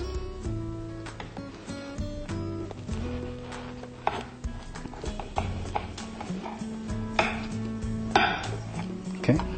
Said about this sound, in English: Can I cut in half? Sure. Let's get a knife.